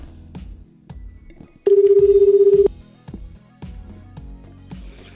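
A telephone call being dialed, heard as a single steady electronic beep lasting about a second, loud and clear over a quieter background.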